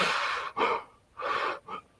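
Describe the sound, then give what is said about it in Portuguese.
Strained inhalations come through a tightly fitted face mask as a few soft, airy breaths separated by brief pauses, faint and alone. “Se quando a gente puxa o ar, a máscara está oferecendo resistência, é provável que ela esteja bem ajustada.”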